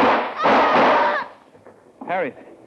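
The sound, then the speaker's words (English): A gunshot in an old-time radio crime drama: a sharp, broad burst of noise with a short ringing tail, followed after a pause by a brief vocal cry. “If you'd dropped that gun, Benson, instead of trying to shoot it, you wouldn't have killed your wife.”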